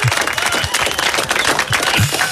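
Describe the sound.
Applause rings out for people celebrating their name day, a dense, continuous wash of clapping that holds steady at a fairly loud level throughout.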